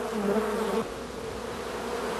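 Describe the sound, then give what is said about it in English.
Honey bees buzzing inside a hive make a dense, steady droning hum. It is slightly louder for the first second, then settles to an even level with no voices. “That's a brand new bee emerging for the first time. You can see her poking her head out and chewing her way through the comb.”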